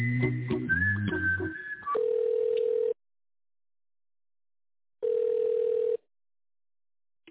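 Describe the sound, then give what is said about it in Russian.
Telephone tones while a call is transferred to a company's tender department: a jumble of mixed beeps and a short whistle-like tone, then two steady mid-pitched ringing tones about a second long, separated by silence. “Тендерный отдел, переведу вас, минутку.”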